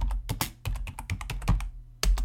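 Someone types a search into a computer keyboard, a quick flurry of clacking keystrokes, then a brief pause and a final few taps.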